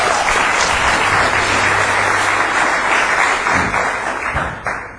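Congregation applause at a church gathering: a big, steady wash of many hands clapping, loud and continuous, tapering slightly toward the end.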